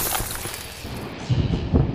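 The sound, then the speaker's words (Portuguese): Window glass shattering, breaking into a harsh, bright crash with a few heavier bursts of breakage toward the end, heard alone without talk. “No mesmo instante, aquilo correu para dentro de um dos quartos e Marcela escutou os vidros da janela quebrando.”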